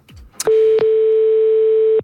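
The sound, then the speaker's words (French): A telephone ringback tone on an outgoing call placed at random for a prize draw: a short click, then one steady, mid-pitched continuous tone of about one and a half seconds. “nous appelons quelqu'un au hasard”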